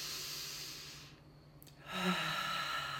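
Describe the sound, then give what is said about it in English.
A deep inhale through the nose during a breathwork exercise. A soft, airy rush fades into a brief near-quiet gap, then swells again into a steady breath that carries to the end. “Now take a deep inhale in.”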